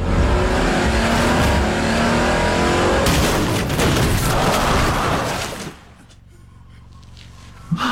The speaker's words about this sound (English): His little sedan. Boom. Was it a hybrid he was driving too? It's a Pontiac Aztec.